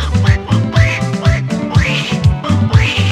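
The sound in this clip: A cartoon duck voice quacks over and over in a quick, bouncing rhythm, loud and nasal, with the squawks coming in steady repeated bursts and no pause across the short stretch.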